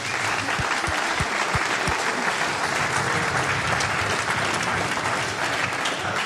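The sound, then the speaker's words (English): Concert audience applauding the sound engineer: dense, steady clapping that fills the whole stretch evenly, with a few sharper individual claps standing out near the start. “I want you to give a big hand for our sound man, Sven Hoffman.”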